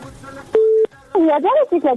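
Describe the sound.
A single steady telephone keypad beep sounds as a number is dialed, lasting about a third of a second, followed by people talking.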